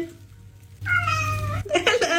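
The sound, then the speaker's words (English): A played recording of a cat gives a long, tonal meow, like a greeting, over a steady low hum. A shorter, brighter burst of sound follows. “So audio of a cat saying hello, for example.”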